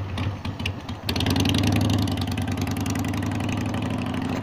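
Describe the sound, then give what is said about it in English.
A motorcycle engine runs steadily, a low, loud mechanical drone that swells and thickens after about a second and stays continuous with a slightly rough, pulsing texture. “We got the third party using their motorcycle.”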